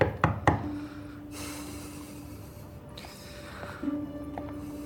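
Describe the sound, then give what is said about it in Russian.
Knuckles knock on a merchant's apartment door inside a building entrance: a couple of sharp, hard raps at the very start, then a quieter stretch with a faint steady hum and a few soft taps. “Борис заходит в подъезд. Газеты! Стучится в квартиру купца.”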